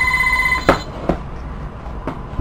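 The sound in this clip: A telephone ringing with one short electronic ring of steady tones, followed by a few sharp, separate clicks or knocks as the ringing stops.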